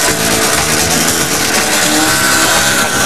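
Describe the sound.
Engines of homemade junkyard vehicles roar as a race run starts, giving a loud, raspy, continuous engine drone with a buzzing, saw-like edge that holds at a steady level throughout, with no voices.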